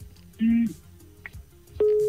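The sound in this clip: Phone line busy tone after a radio call-in caller's line drops: two steady, mid-pitched tone bursts separated by a quieter gap.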